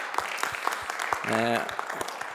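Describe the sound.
Sparse hand clapping from an evening audience thanking a guest speaker after a talk: a few distinct claps in loose rhythm, with a brief voice sounding midway.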